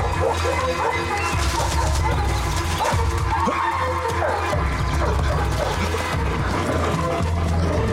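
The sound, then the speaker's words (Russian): Hunting dogs bark and yelp in pursuit through a forest, a continuous run of overlapping barks blended with other dense noise that persists throughout. “За ними гонятся охотники с собаками.”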